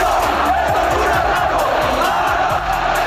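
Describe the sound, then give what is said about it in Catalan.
Girona football fans shout and roar as they invade the pitch at the end of a 1-1 match against Lugo. The crowd noise is a loud, dense, continuous wall of yelling that holds steady throughout. “Ha saltat el públic del Girona. Això és un impagió del camp en tota regla, eh?”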